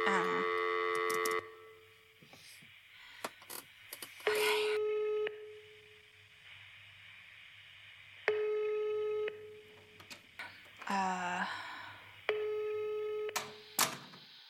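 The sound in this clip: Ringing tones on a telephone line while a call is placed, bursts of a steady electronic tone repeating with quiet gaps and small clicks between them.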